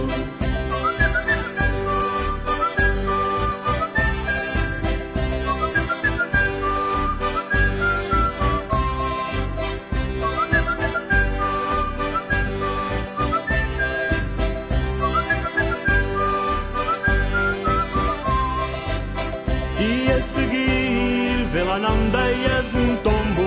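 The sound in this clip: Whistling carries the tune along with a lively Portuguese song, a bright melodic line over a steady driving beat and dense band accompaniment, loud and continuous throughout.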